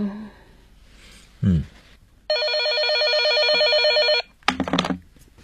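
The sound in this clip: Telephone bell ringing: one bright, steady ring lasting about two seconds, with short thuds just before and after it.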